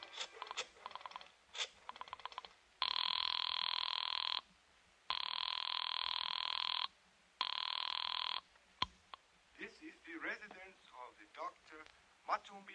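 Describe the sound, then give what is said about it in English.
Telephone ringing after a number is dialed: a few clicks, then three long, steady electronic rings with short gaps, the last one cut short. Voices then start talking. “I dug through the telephone book and I found Dr. Matson B. Forsythe's number and I dialed it.”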